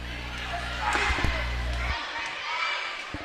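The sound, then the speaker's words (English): A basketball dribbled on court during a women's game, heard as a few dull bounces with a thud or two over a steady crowd murmur and muffled voices. “Dribbling left, skip pass across the court to Hawkins”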